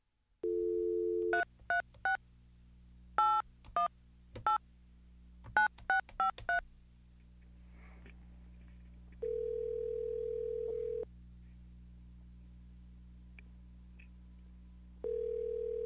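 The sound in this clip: Telephone tones: a steady dial tone gives way to quick bursts of touch-tone dialing beeps in irregular groups, then a quiet stretch before the steady tone returns twice, all over a constant low hum.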